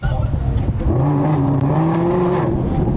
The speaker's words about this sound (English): Now it's a street race with a cop.